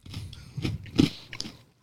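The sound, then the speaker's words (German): Crunchy bites and chewing of a spelt wholegrain spekulatius biscuit, with several crisp crunches and softer chewing sounds in between. “Vor allem, wenn man Dinkel-Vollkorn-Spekulatius hört, dann denkt man auch immer gleich, man tut sich was Gutes. Oder nicht? Was fürs Gewissen meinst. Aber das stimmt, das schmeckt besser als riecht.”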